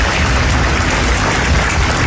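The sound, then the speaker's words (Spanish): Dense, steady applause from a crowd at an outdoor civic celebration of Casilda's 119th anniversary, a continuous rushing texture without distinct individual claps throughout. “Un aplauso bien grande.”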